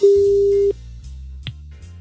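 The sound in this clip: A single ringback tone from an outgoing telephone call: one steady, mid-pitched beep lasting under a second, then a low hum and a faint click.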